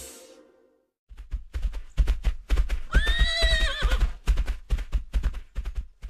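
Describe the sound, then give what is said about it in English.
A galloping horse's hooves pound in a quick, steady clip-clop rhythm after a second of near silence, broken midway by a loud, wavering whinny. “did you hear that galloping?”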